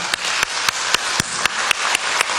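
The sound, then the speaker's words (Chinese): Applause for the fathers at a church service: a dense, steady wash of clapping, with sharp, louder claps cutting through at a quick, even beat. No voices are heard. “给父亲们一个掌声好吗？”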